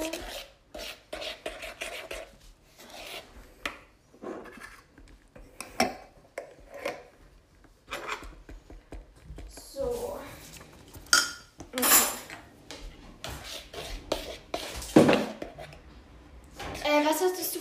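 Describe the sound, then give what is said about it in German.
Ingredients being mixed in a bowl, with many quick clinks and scrapes of a utensil against the bowl in an uneven rhythm. People talk over the clattering throughout. “So, dann vermenge ich das einmal.”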